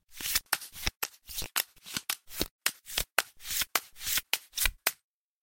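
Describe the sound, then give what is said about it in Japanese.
Playing cards being shuffled: many quick, crisp riffling bursts in a steady, regular rhythm, each a short papery rush, ending in silence. “じゃあまずはカードをシャッフルしちゃうね。”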